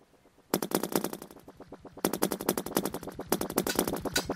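Rapid automatic gunfire from a video game comes in three long, loud bursts of fast, evenly spaced shots, with brief breaks between them and no talk.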